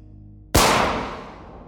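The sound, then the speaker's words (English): A single gunshot sound effect for a gunman firing into the back of Kirov's neck: a sudden loud crack after a low hum, followed by a long, fading tail. “Casting around to ensure they're alone, the gunman withdraws his weapon and creeps up on his target. He fires into the back of Kirov's neck.”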